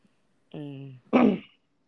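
A single throat clearing. A short voiced hum comes first, then a rough, noisy burst, with silence before and after.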